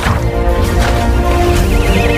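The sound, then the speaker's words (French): A pony neighs loudly, a shrill, quavering whinny that continues through the short clip with no talk over it. “Moi, ça m'étonne pas qu'il soit échappé, ton poney. Mais comment tu traites tes animaux?”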